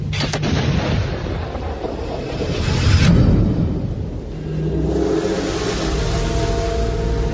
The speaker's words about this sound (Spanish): Carga la bala del calibre 7.62 en el fusil y dispara.